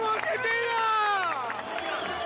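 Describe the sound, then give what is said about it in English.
Thousands of Argentine football fans gathered in a Buenos Aires park roar and chant together while watching their team's match, a dense, sustained wall of cheering with sung, wavering tones running through it. “At this Buenos Aires park, thousands of fans gathered to watch the game and cheer their team from more than 13,000 kilometers away.”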